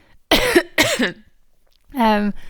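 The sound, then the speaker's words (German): A woman feeling unwell coughs twice in short, harsh bursts. After a pause comes a brief voiced throat-clearing sound. “ich werde übrigens mein Husten nicht rausschneiden oder mein Räusper, also muss jetzt einfach mit dem leben.”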